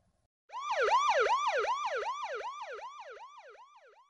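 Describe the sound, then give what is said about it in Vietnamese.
A police car siren begins after a brief silence and runs as a rapid, loud yelp, its pitch sweeping up and down in many quick, regular cycles. “Xe công an chở Phó Đại Cương rời đi.”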